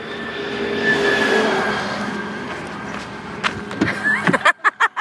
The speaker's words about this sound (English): A fancy white Volvo rolls up next to me.